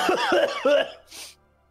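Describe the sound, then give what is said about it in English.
A deep, throaty smoker's cough, performed by a person's voice as a few rasping, grinding bursts and then a short, breathy hack. It is fairly loud and heard without other talk. “She's got like a big deep throaty smoker's cough.”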